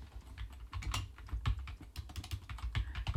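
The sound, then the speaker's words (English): Rapid, irregular clatter of keystrokes on a computer keyboard while searching, steady for about three seconds, fairly quiet and with no voices. “So I need you to follow with me. Just type in The Phantom.”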